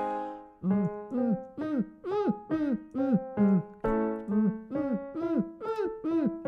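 A singer performs a vocal kick-drum exercise, a steady train of many short voiced thumps, each bending down in pitch, repeating about twice per second at even loudness.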